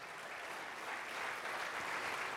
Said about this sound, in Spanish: Aplauda al Rey de Reyes.